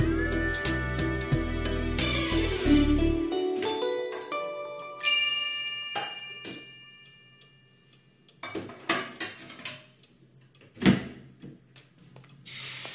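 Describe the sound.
Kitchen cooking sounds as eggs are fried: a musical passage fades out, then a few scattered metallic clinks and clatters of pots, pans and utensils, one standing out louder.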